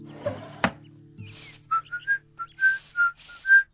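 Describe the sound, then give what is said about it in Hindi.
A man whistles a film tune, partly off-key, while getting ready for the office. A few dull knocks come first, then a bright, wavering run of short whistled notes, moderately loud, with no talking. “Rohan सीटी बजाते हुए कोई latest फिल्मी गाना थोड़ा सुर में थोड़ा बेसुरा गुनगुनाते हुए ऑफिस के लिए तैयार हो रहा था।”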